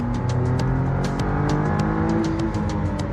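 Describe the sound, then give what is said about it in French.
A hybrid Artura sports car accelerates hard as its turbo kicks in, giving a loud, continuous engine drone with slightly rising tones and a few faint, sharp ticks over the top. “on a une bonne délivrance de la puissance progressive, quand même, avec un coup de pied au cul quand il y a le turbo qui se met en route.”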